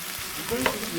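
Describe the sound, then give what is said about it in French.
Bacon lardons sizzling in a pan as they brown for a traditional quiche lorraine. A steady, crackling hiss holds throughout, with small spits and the faint scrape of stirring. “Qu'est-ce que j'entends ? C'est quoi ce bruit ? Papote, popote. Là, on fait revenir un petit peu les lardons pour faire une quiche lorraine traditionnelle.”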